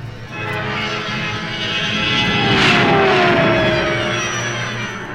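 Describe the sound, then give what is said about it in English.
A science-fiction spaceship's engines activating: a sustained, loud roaring drone with a whining tone that swells to a peak midway and then eases off slightly, with no talking. “At a safe distance, he activates the engines and heads for Bespin, home of Lando Calrissian.”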